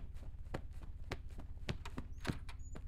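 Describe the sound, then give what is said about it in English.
Running footsteps hurry down a hallway. Many quick, evenly spaced footfalls sound faintly over a low, steady drone. “run as fast as you can down the hallway. Do not look back and do not get distracted. These other worlds will try to draw you in. Be strong. What do you mean? Run! I'm running.”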